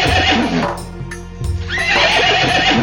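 A mare whinnies loudly in two long, quavering neighs separated by a brief quieter lull.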